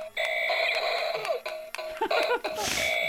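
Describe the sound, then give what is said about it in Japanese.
Electronic gunshot effects from a blue, cat-like toy robot just switched on: several sharp bangs punctuate a warbling synthetic tone, and laughter breaks in near the end. “なんでこんな銃の音鳴るの”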